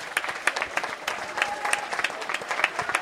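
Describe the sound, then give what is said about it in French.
Audience applause for teachers at a school ceremony: dense, steady clapping from many hands that carries evenly through the whole stretch, with a faint murmur of the crowd underneath. “Donc, une grande ovation aux professeurs.”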